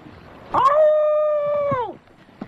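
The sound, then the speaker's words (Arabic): A single wolf howl rings out as one sustained, tonal cry lasting over a second, holding a fairly steady pitch before sliding down and fading at the end. “ايه ده؟ ده صوت ديب. هو في ديب في البحر؟”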